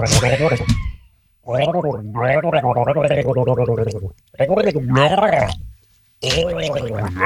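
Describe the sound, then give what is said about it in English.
Gargling coffee, used by a person's voice to imitate a shark mating noise: four bubbly, throaty bursts with short gaps between them. The gargle wavers up and down in pitch and stays loud throughout. “Shark mating noise!”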